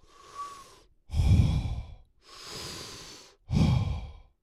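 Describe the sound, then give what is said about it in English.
Heavy, deliberate breathing to calm down: two slow in-and-out cycles. Each long airy inhale is followed by a louder, deeper exhale, with no talk. “Okay, breathe, man. Breathe, breathe.”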